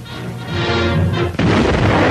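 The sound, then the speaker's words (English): Anti-aircraft artillery fires on Soviet tanks during a battle, with a heavy, continuous rumble broken by one loud, sharp blast of gunfire near the end. “Flakartillerie feuert auf sowjetische Panzer.”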